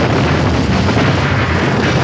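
Roar of a car exploding and burning. The sound is a loud, dense, steady rumble that fills the whole stretch without distinct separate bangs.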